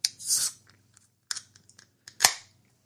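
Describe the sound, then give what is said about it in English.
A can of beer cracks open with a sharp snap and a fizzing hiss, then a few lighter clicks and a second burst of hissing. “Let's crack a beer.”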